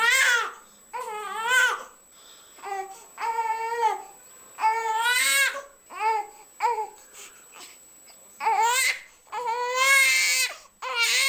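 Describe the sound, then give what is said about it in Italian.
A young nursing infant cries in many loud, wavering wails, each broken by brief pauses, with a cry that signals a need for closeness and breastfeeding. “che pianto potrebbe essere questo? Ma quello che stavamo accennando prima, il lattantino vuole avere la vicinanza e l'allattamento della mamma”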